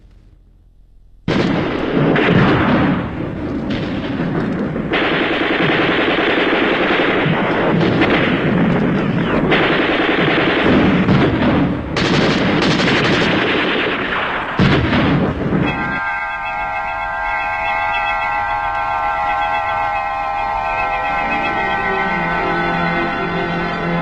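Gunfire and artillery fire roar in a loud, dense barrage of heavy booms and blasts for about fifteen seconds. A steady tonal sound then takes over.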